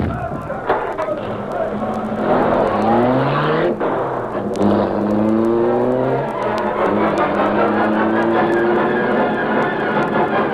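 Car engine revving hard and pulling away in a hurried escape, loud throughout, its whining harmonics sweeping upward in pitch several times as it accelerates over a steady low rumble.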